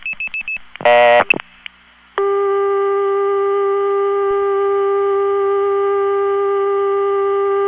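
A telephone switch returns a dial tone after a trunk is reset and a 5 is dialled: a few short beeps and a brief buzzy burst, then a loud, steady, unbroken dial tone that holds to the end.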